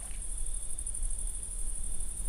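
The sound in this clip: Crickets chirp in a thin, steady, high-pitched trill that carries on without a break for the whole clip over a low background hum, faint and with no voices.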